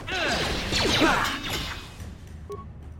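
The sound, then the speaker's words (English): Sweeping whooshes and crashing impacts of a critical strike attack in a video game. They come in a dense, loud burst over the first part, fade out, and a short tonal blip sounds near the end. “All right, critical strike, go.”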